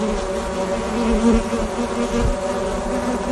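Honeybees at urban hives make a dense, steady buzz that holds at an even level throughout.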